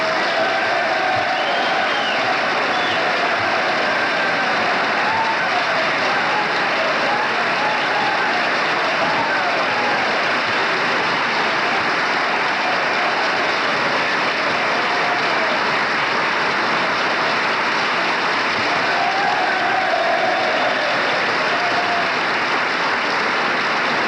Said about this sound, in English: Gerald Ford's colleagues are on their feet applauding, and obviously that reference was to the minority leader, Gerald Ford.